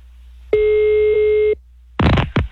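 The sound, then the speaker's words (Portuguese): A single steady telephone ring tone, mid-pitched and about one second long, sounds while a call is being placed. A short burst of other sound follows after a brief pause. “Vou ligar pra o Rico.”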